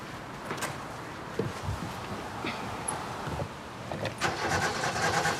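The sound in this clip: A car engine is cranked but fails to start, giving a steady churning, rumbling noise with small irregular surges and no firing catch. No one speaks.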